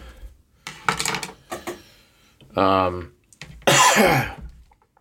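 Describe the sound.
Throat clearing from a dry throat: a series of rough, scraping bursts, some with a voiced, hum-like tone, growing louder toward the end.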